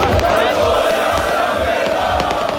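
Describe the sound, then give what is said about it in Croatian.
Dinamo Zagreb players and fans celebrate on the car park in front of Maksimir stadium's west stand, a loud crowd of voices shouting and chanting together, sustained and rowdy throughout. “Slavlje se je potom Stravnjaka preselilo na parking ispred zapadne tribine Maksimira, gdje se proslava igrača i navijača nastavila uz glasbeni program.”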